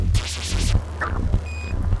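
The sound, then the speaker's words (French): Electronic beeping of the small Sputnik 1 satellite's radio transmitter, picked up at night over the Kazakh steppe near Baikonur. A single thin, high, steady tone sits among warbling, sweeping noise and a low rumble. “le bip-bip caractéristique de l'émetteur radio du petit satellite répond”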